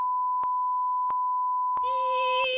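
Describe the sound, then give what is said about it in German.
Censor bleep: a steady, mid-pitched tone running the whole length, broken by three short clicks, with a brighter harmonic sound layered over it during the last second. “Piep.”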